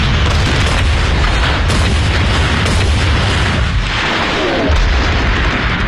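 Artillery fire and explosions from a World War II battlefield barrage, a loud, dense, continuous rumble of booms with no pauses.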